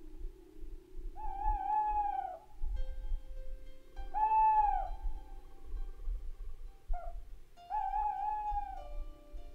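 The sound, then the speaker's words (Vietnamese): An owl calls three times at night under a dark sky, each hoot drawn out and wavering and evenly spaced, over a low steady rumble. “Con cú rùng mình, đoạn tung cánh bay vút lên trên nền trời u tối.”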